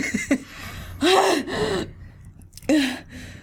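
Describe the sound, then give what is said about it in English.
A person gasping for breath after surfacing from water and coughing: a few strained, voiced gasps, one drawn out and wavering, separated by short quiet pauses. “Just like gasping and like dying. You are alive, but yes, you are gasping.”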